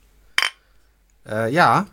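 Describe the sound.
A single quick, bright clink of glasses touching in a toast, followed after a brief pause by a voice.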